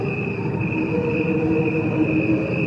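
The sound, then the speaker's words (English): Cricket chirps slowed down to a human pace make a sustained, steady wash of layered tones with a bright, high ringing pitch over a softer buzzing bed. It is fairly loud and continuous, with no voices. “it was slowed down by the amount of times that crickets' metabolism is faster than humans, you know. And then when it was slowed down, they sound like this.”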